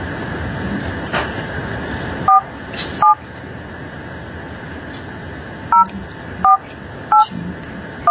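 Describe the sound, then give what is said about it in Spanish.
Touch-tone keypad beeps as a telephone number is dialed: several short, bright two-tone beeps at irregular intervals over a steady low background hum. “estoy marcándole aquí a Margarita Solórzano Castro”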